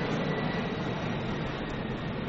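An airplane passes overhead, heard as a steady, broad engine roar with a low rumble that holds at an even loudness throughout, with no voices.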